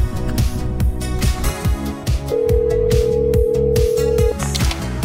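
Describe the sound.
A telephone rings in a loud, rhythmic, repeating pattern just before an answering machine picks up, with a long steady tone held through the middle of the ringing and no talk.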